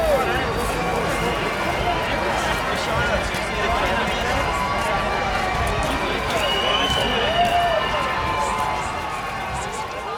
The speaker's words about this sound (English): Every year, on or about March 17th, sounds like this erupt on city streets around the world in celebration of an Irish fellow from 1600 years or so back in time named Patrick